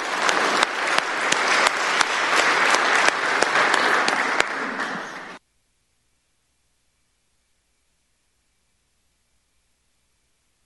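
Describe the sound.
Audience applause welcoming a speaker to the stage at a church gathering: dense, steady clapping for about five seconds that cuts off abruptly into silence.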